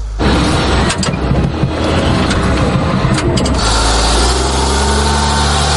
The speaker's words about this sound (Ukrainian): Попри свої чималі розміри, «Хаймерс» легко набирає швидкість, і це ще пересічною місцевістю.